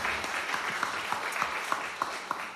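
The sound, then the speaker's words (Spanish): Audience applause fills a church welcome, a steady dense clapping texture with scattered sharper claps standing out at fairly regular intervals throughout. “Vamos a hacer un fuerte aplauso a la presencia de Dios aquí.”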